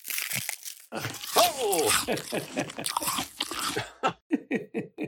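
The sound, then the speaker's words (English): Crunching bite through living bone and muscle: a dense run of wet cracking, tearing and chewing crunches that breaks into several sharp, separate crunches at the end. “And I didn't know that their bites would have also encompassed living bone as well as chunks of muscle. Yeah, I mean, that's some serious, serious eating. Can you imagine the sound of that? Would it sound something like this,”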